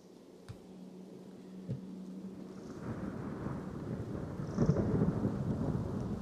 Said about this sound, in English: rain begin to fall.